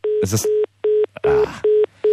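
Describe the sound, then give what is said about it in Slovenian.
A repeated busy tone sounds on a telephone line after a call drops: six short, even, mid-pitched beeps with regular gaps, and a brief voice over the first beeps. “Morda je padla zveza, se upravičujem, no, poskusimo še enkrat.”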